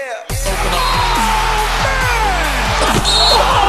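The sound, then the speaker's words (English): Basketball slam dunk sound effect: a few hard, sharp bounces thud out over a dense, noisy crowd-like bed that stays loud throughout. “I've been bottling this up all week, all show. I've got to get it off my chest. It's time for the slam dunk.”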